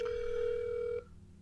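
Ringback tone of an outgoing telephone call: one steady, fairly faint electronic tone held for about a second, then cutting off to quiet line hiss.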